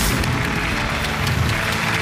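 Applause from a television health program's audience as two hospital doctors are welcomed onto the show, heard as dense, steady clapping with a few sharper claps standing out.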